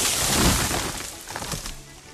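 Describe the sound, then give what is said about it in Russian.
A wooden house cracks and collapses as a bear sits on its roof: a sustained, rough crashing rumble full of crackling splinters, loudest at the start and easing slightly while scattered cracks continue to the end. “Затрещал теремок, упал на бок, весь развалился.”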